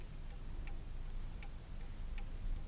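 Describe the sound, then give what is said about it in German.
An old clock above a fireplace with a golden grate ticks seven times in an even, unhurried rhythm. Each crisp tick is faint over a low, steady background rumble. “Gläsern und still. Die alte Uhr da oben, über dem Kamin mit dem goldenen Gitter.”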